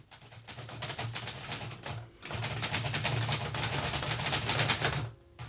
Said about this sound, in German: tippte gerade den letzten Bericht.